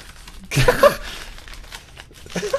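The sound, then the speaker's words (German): Gift paper crinkles as a wrapped present is opened, with a short burst of crisp rustling and tearing followed by quieter, scattered crackles. “Aber schönes Geschenkpapier. Mach doch mal auf, mein Lieber, weil ich schätze, sind einfach Fotos drin oder was?”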